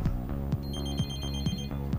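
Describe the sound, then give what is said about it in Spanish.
A studio telephone rings with an incoming call to a radio show: evenly spaced, bright ringing bursts repeat about every half second over a steady tonal buzz, moderately loud, with no talking. “Teléfono. ¿Tenemos una llamadita? A ver, la va a atender el señor acá.”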